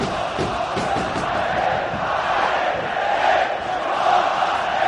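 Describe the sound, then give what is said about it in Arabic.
Zamalek football fans chanting in a stadium during a match, a loud, sustained crowd roar with a rough rhythmic pulse early on, unbroken and free of talk. “جمهور الزمالك ينادي على جيران”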